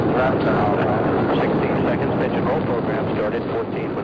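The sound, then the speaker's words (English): Apollo 14 rocket liftoff, heard as a loud, dense rumbling roar that stays steady and continuous from start to finish with no breaks. “Liftoff. We have liftoff with Apollo 14.”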